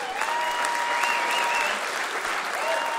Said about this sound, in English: we'd like you, the audience, to give yourself a round of applause